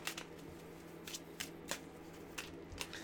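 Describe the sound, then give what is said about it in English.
Playing cards from a boxing-themed card game being dealt out one by one, heard as a series of crisp, papery slaps spaced unevenly over a quiet background. “So you deal seven cards out.”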